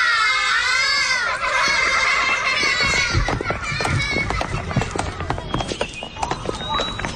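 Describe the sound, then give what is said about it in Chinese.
Children play on swings at a school, their high voices shouting, calling and chattering over each other, with many sharp thumps and clatters mixed in throughout. “好好，孩子们荡秋千注意安全啊。”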